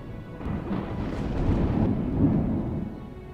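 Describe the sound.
Thunder from a lightning strike rolls as a deep, continuous rumble, swelling midway and again near the end, with a faint rain-like hiss over the low roar.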